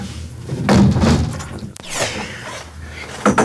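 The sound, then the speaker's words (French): A window is shut, with rustling and sliding movement leading up to one sharp bang near the middle, then quieter handling noise. “Je vais fermer la fenêtre.”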